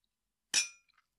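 A single bright glass clink during a toast: a sharp attack with a short ringing decay, followed by a couple of faint tinkles, with no talk.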